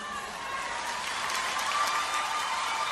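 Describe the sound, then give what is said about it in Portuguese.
Audience applause at a live music show, a steady, moderately loud wash of many hands clapping without pause, with no distinct voices standing out. “outra salva de palmas”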